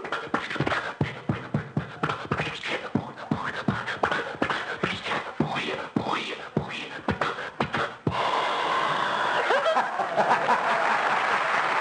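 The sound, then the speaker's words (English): A man's voice imitates a Maxwell car engine struggling to start, with many rapid, choppy sputters and coughs in an uneven rhythm. After that the studio audience breaks into sustained laughter and applause. “So I said, get the Maxwell started. And he would go out, and you'd hear the Maxwell, and this would be it.”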